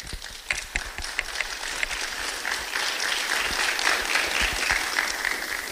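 Audience applause welcoming a California State Senate District 16 candidate at a Kings County event: dense, steady clapping from many hands that carries on throughout without a break.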